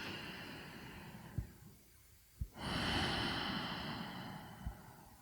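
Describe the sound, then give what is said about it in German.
A slow, deep breath during a guided breathing exercise: a long, soft, airy rush of air that swells and holds for a couple of seconds after a quieter pause, with a few faint thumps. “vielleicht ungefähr so ist, ja, vielleicht etwas tiefer und langsamer, als wie du normalerweise atmest”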